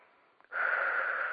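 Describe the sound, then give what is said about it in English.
A deep breath drawn in: after a quiet start, an airy, wheezy hiss begins about halfway through and holds at a steady strength to the end, with no talking. “So I'm going to invite everybody to take a deep breath in, just connecting our energies”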